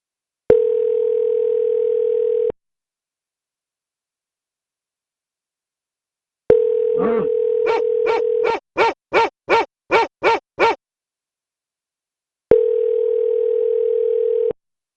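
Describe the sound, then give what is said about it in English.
Telephone tones: a steady electronic tone lasting about two seconds, then the tone returns and gives way to a rapid series of bright, trilling ring-like pulses, and finally the steady tone sounds once more. “where there's a ringing phone”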